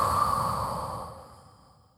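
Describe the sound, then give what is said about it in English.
A slow breath out during a guided breathing exercise: one long, soft, airy exhale that starts fairly full and fades steadily away over about two seconds, heard alone. “Last, breathe in. Now breathe out.”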